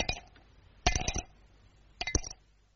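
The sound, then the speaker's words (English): Cape plum stones clink onto a dish in three short clusters of bright, ringing taps separated by pauses, with nothing else heard. “Inside every Cape plum, there's a nice clean stone asking to be let out. There's a very sweet sound to Cape plums when you have them for afters.”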